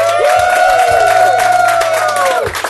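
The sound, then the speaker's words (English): A live studio audience at a convention recording cheers and applauds, a steady dense crowd roar with high whooping cries over it that fades slightly near the end. “And we are recording in front of a live studio audience.”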